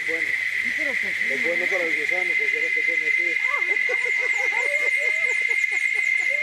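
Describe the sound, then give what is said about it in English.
A steady, high-pitched insect drone rises from the trees of an indigenous village in Baruca. It runs loud and unbroken from start to finish, with busier, lower warbling sounds shifting underneath. “Those are insects in the trees here in Baruca”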